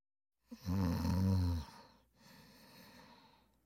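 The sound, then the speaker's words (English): A single snore: a loud, rasping inhale with a deep rattling buzz, followed by a softer breathy exhale. “Snore.”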